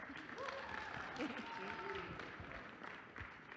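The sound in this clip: Faint applause welcoming a pastor at a morning church service, a soft, continuous patter of clapping with voices heard over it.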